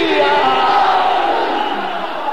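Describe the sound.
A crowd roars back in response to the Naara-e-Haidari religious slogan, a loud, dense mass of many voices shouting together, holding steady and full for the whole moment before easing slightly at the end.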